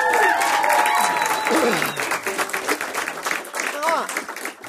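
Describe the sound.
Audience applause welcoming a performer, dense sustained clapping and crowd noise that stays loud throughout, with a voice speaking over it.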